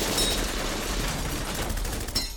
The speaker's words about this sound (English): With their target confirmed inside the building, they unholster their weapons and unleash a volley of 200 bullets.